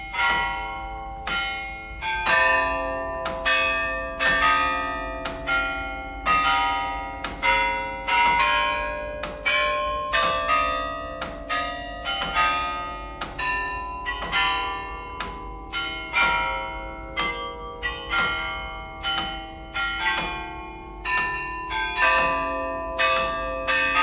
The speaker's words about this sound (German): Колокола царских времен. 18 век. Das Glockenspiel der Zaren. 18. Jahrhundert.